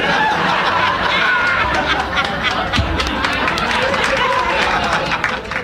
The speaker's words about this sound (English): All right, that was a terrible example. But why does the laugh track exist? If something is truly funny, why does it need a laugh track?